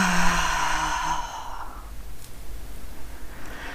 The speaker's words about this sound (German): Atme jetzt tief ein und durch den geöffneten Mund alles aus.